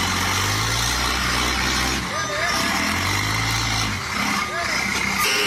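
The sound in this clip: A truck loaded with coffee starts up and pulls away, its engine a low, heavy rumble that holds steady at high volume, with people talking over it.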